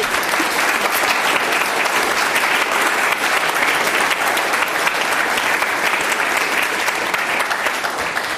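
An audience at a Commonwealth Club of California panel event applauds the panelists. The clapping is dense and even, holding at a steady level for the full duration.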